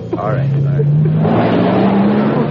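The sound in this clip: A car engine pulls away, its low steady hum creeping slightly upward in pitch as the vehicle accelerates, with people talking over it.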